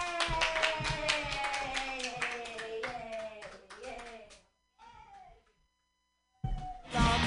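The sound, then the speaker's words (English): An open mic crowd clapping hands for a comedian, a brisk burst of applause with cheering voices over it that fades after about four seconds, then near silence before voices and noise return at the end. “clap your hands together for your first comedian of the night”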